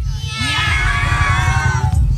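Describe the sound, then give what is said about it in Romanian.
A crowd of children imitating cat meows together in Iași: a loud, dense chorus of overlapping high voices that swells after a brief start and holds steadily for about two seconds. “Pisici avem? Miau! La 3, 2, 1 și toate pisicuțele din Iași?”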